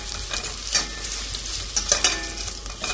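Food fries hard in a smoking-hot pan and is turned with a slotted skimmer. A steady hiss and crackle runs throughout, with scattered louder pops and stirring sounds, and no voices.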